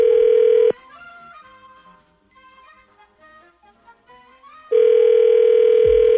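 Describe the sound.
Telephone tones on a line as a call is placed: a loud, steady tone at the start stops abruptly, a soft melodic tune plays, then the steady tone returns at full level.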